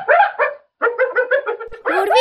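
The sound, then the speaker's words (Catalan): Hyena barking with laughter-like calls: many short, high, bright yelping bursts in quick runs, each rising and breaking like a giggle, with a brief pause between the first and second runs. “És una hiena atacada. Quan lladren, el soroll recorda un riure humà.”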